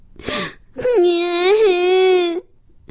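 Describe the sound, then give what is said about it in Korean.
A human voice imitates the youngest baby raccoon crying in fright in a children's story. A short whimper comes first, then a long, loud wavering wail that swells and dips before breaking off. “막내둥이는 무서워서 그만 울고 말았어요.”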